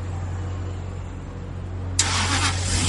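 Car engine starting: a low, steady hum runs for a while, then the engine catches with a sudden broad burst of noise and keeps running loudly to the end.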